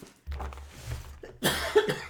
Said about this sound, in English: Sorry, I still have this cough.